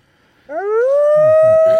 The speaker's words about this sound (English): Afraid the dogs won out on that one.